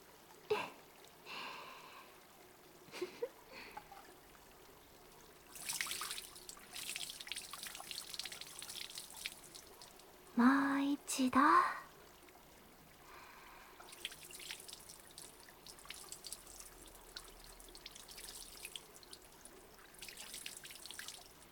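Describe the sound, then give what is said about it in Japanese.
Water that is not hot is poured to rinse someone's back: a few separate stretches of faint splashing and trickling, with soft drips in between. “熱くない。お背中を流しましょう。”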